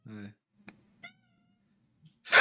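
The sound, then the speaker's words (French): A cat meowing at the door, wanting to go out: one short, clear, tonal meow at the start, then a couple of faint brief chirps, and a louder noisy burst at the end. “il est en train de gratter parce qu'il pisse par terre devant la porte pour dire qu'il veut sortir. Et là, il miaule. Tu l'entends ? Oui, on l'entend”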